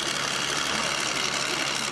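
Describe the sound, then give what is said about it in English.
A six-cylinder diesel engine from a school bus drives a pumpkin-flinging centrifuge built from scrap, giving a steady, dense mechanical roar that holds an even level without pause. “The centrifuge called United Flingdom, brought here and built completely from scrap by the British team, is powered by a 6-cylinder diesel engine from a school bus with 9 drive shafts, a hand crank engine, and hydraulics.”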